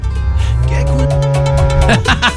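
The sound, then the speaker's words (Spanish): Cows moo, with one loud, drawn-out, low-pitched bellow lasting about a second, set against a steady background rumble. “Ahí están las vacas. Cojan las vacas”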